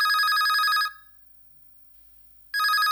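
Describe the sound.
A telephone rings with an incoming call in two loud bursts of bright, bell-like trilling, separated by a near-silent gap of about one and a half seconds.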